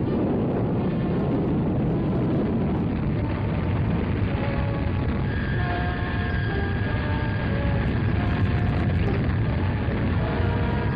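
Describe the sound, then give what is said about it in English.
Roar of a Redstone rocket launching an unmanned Mercury space capsule, the MR-1A replica, at Cape Canaveral: a continuous broad rumbling noise that stays steady throughout, with faint tonal traces running through it. “At Cape Canaveral, the 7 United States Project Mercury astronauts are among the observers at the firing of a Redstone rocket carrying an unmanned space capsule.”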